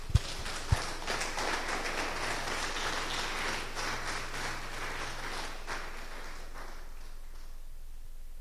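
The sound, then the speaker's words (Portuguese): A church audience applauds during a sermon. Even, rain-like clapping starts with a couple of sharp knocks, holds steady over a low hum, and fades toward the end. “Pode dar uma salva de palmas?”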